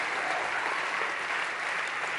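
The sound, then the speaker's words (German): Audience applause, a dense steady wash of clapping hands that holds loud and even throughout without a break. “Gib denen mal bitte einen ganz, ganz fetten Applaus.”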